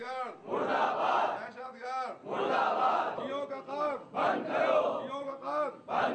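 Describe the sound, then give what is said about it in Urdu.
Crowd chanting slogans against terrorism and the killing of Shias at a protest: loud massed voices in rhythmic bursts that alternate with passages of fewer, clearer voices, keeping a steady chanting pulse throughout. “دہشت گردی مردہ باد، شیعوں کا قتل بند کرو جیسے نعرے بھی لگائے۔”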